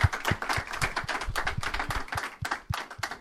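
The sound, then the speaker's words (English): Studio audience applauding for a guest: a sparse, fairly quiet patter of sharp individual claps at a quick, slightly uneven pace, with no cheering. “And we'll give him a hand one more time. Please. Studio audience.”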